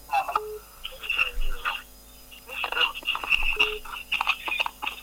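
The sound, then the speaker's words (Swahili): A listener's incoming telephone call line: thin, band-limited line noise with warbling tones and crackle coming in bursts over about five seconds, with a voice-like quality through the line. “Okay, kuna simu ya msikilizaji hapa.”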